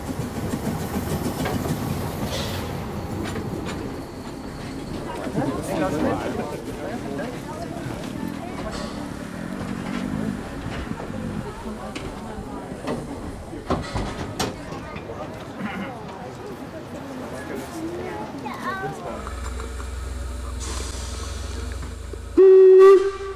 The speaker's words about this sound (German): Ja, nächste Haltestelle Lauterbach. Wir fahren hier von Putbus aus, natürlich mit dem rasenden Roland.